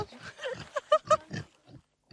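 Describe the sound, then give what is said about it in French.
A small herd of free-roaming pigs used to weed vineyards gives many short, throaty grunts, with a few louder, higher snorting calls in the middle before trailing off. “Ça pourrait être un troupeau de cochons, mais c'est vrai, c'est un troupeau de cochons itinérants.”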